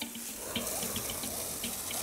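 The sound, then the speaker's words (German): Running water flushes out a hippopotamus enclosure, a steady rushing, splashing flow that stays even and continuous with no voices. “Praktikantin Vera hat schon begonnen, die Anlage durchzuspülen.”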